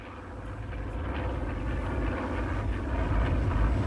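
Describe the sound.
An airplane coming in to land with its right landing gear not lowered: a loud, steady, broad engine roar and rumble that swells slightly over the whole stretch, with no voices.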